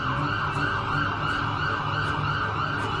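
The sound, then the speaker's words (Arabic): An ambulance siren sounds while the vehicle is stuck in heavy afternoon traffic, a loud, continuous wail with a fast repeating cycle over steady road noise, with no voices. “مفيش مجال يوسعوا الطريق للعربية رغم السرينة اللي شغالة.”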